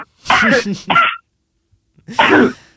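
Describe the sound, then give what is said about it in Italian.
Someone sneezes in two loud bursts. The first comes in quick stuttering pulses, and the second follows after a short silence. “Aspetta che starno disco, scusami. Salute.”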